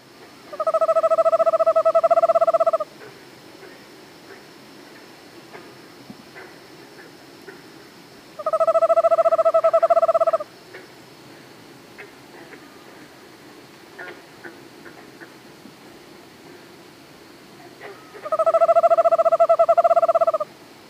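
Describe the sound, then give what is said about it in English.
Eastern screech owl giving its monotonic trill: three sustained, even-pitched trills, each about two to three seconds long, separated by long quiet gaps against faint background hiss. “here's the sound of an Eastern screech owl making its monotonic trill.”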